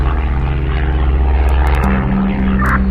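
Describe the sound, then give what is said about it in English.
A propeller aircraft drones steadily in flight shortly after takeoff. The engine noise is loud and continuous, with a low humming tone that shifts slightly partway through. “Take off was so nice. Even the flight is very stable.”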